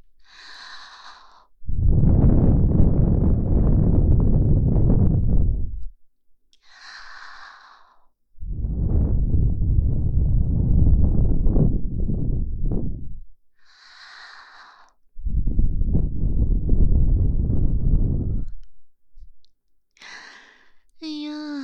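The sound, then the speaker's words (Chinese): A person blows hard with their breath to imitate a strong gust of wind: three long, loud, breathy blasts, each lasting several seconds, separated by brief soft mouth sounds and quiet pauses. “这样对你来说，应该就是狂风了吧？”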